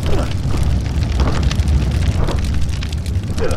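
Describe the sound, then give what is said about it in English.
A fire burns with a loud, steady, low roar that fills the whole clip, while voices are briefly heard over it. “Help me grab these blankets. We've got to put out the fire.”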